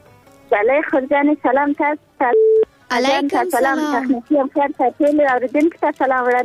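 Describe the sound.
A short, steady electronic beep marks a telephone call being connected. The single tone lasts about half a second in the middle of continuous talking.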